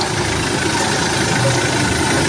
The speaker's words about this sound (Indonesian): Kini aku belokkan mobilku ke jalur off-road. Mobil pun berguncang.